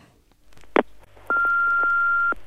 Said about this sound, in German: Unser Anrufbeantworter hat eine Nachricht.